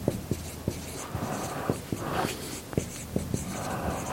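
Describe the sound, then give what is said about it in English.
Names being written up on a board: many short, scratchy marker strokes, each starting with a sharp tap, in an uneven rhythm with brief pauses between words. “So that's the other reason I'm writing them up here.”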